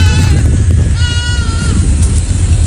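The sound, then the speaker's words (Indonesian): Goats bleat as dozens of them roam and forage on garbage piles in Kalibaru, Cilincing, North Jakarta. A few faint, wavering bleats rise over loud, constant low rumbling noise. “Pangan, Kelautan, Pertanian, KPKP menyoroti puluhan kambing yang berkeliaran dan mencari makan di tumpukan sampah di kawasan Kalibaru, Cilincing, Jakarta Utara.”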